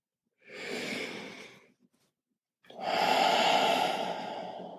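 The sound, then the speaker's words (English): A deep breath taken on request: one airy inhale of about a second, a short pause, then a longer, louder, rushing exhale that tapers slowly, with no talking. “Take a deep breath.”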